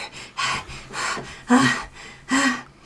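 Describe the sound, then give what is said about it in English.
Imitated panting by a person voicing an exhausted character who collapses onto one knee: a few breathy, rasping huffs in an uneven rhythm, moderately loud and alone. “Azalea would like to, she would just sort of like collapse on her one knee and just be holding up her hand and pant a little bit”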